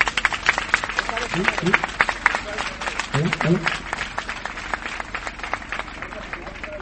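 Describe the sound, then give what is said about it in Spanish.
A crowd applauds at a 15M neighbourhood assembly, with many scattered claps running throughout at a moderate level and voices mixed in over them. “Sí, me merecemos un aplauso.”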